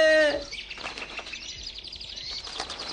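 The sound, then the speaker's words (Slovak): Small birds caught in a net flap their wings in a rapid, papery flutter that continues throughout, opening with a brief high chirp. “Aha, vtáčkovia v sieti chytení.”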